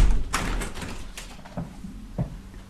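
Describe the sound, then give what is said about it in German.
A window is shut by hand: a few faint knocks and sliding scrapes, then soft thuds, with no voices over them. “Ich muss das Fenster zumachen, es tut mir leid, ich kann mich nicht konzentrieren.”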